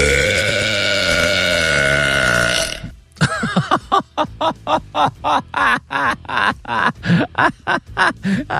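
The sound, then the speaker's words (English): A woman lets out a record-setting, extremely loud burp: one long, rasping, deep belch lasting about three seconds, followed by many short, rhythmic, pulsing bursts. “She set a new world record yesterday for the Guinness Book of World Records for the loudest female burp.”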